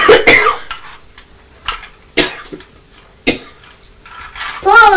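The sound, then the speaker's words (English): Coughing from someone with a cold: a few sharp, separate coughs with pauses between them, and a voice speaking briefly at the end. “Yes, I've still got this cough and cold, haven't I?”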